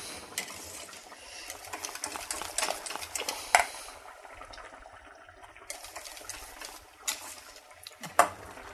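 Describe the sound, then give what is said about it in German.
A salad dressing with vinegar, salt and pepper is stirred, giving quiet, continuous scraping and swishing with a few sharper clinks scattered through, and no voices. “Ich tue jetzt selber noch einen Schuss Essig dran. Noch ein klein bisschen Salz, Pfeffer. Rühre das Ganze um.”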